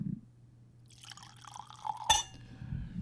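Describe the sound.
A drink pours into a glass with a gurgling, bubbling fill that grows busier. A sharp glassy clink cuts in near the end, over a quiet low hum.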